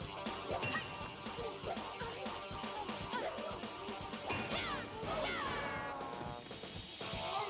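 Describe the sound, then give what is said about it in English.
A Vulcan Skull crash sound effect: a dense, loud run of smashing, clattering impacts mixed with whistling tones that sweep up and down, continuing without a pause. “Except that was a Vulcan Skull sound effect.”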